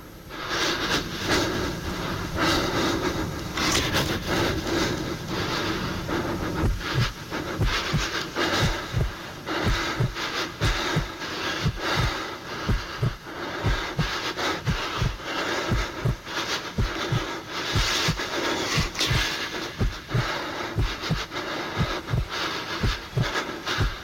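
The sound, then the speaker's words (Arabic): Breathing and a heartbeat of someone alone in pitch darkness at night: panting breaths fill the opening seconds, then many low, regular thumps join in a steady, fairly quick rhythm beneath the continuing breath. “مش سامع غير صوت نفسي وصوت دقات قلبي”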